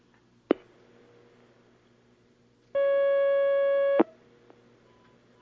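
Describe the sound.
A telephone line tone sounds as a call comes in to a phone-in question session: a single steady, bright electronic tone of just over a second, framed by sharp line clicks before and at its end, with quiet hiss between.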